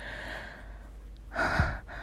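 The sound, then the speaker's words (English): A soft breath, heard as a single short gasp-like exhale that rises briefly out of a faint, steady background hum. “I know all that you can hear, my soft panting”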